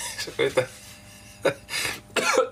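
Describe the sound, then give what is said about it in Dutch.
Coughing after choking, a few harsh, abrupt bursts with short pauses between, some breathy and rasping like throat clearing. “Verslik me.”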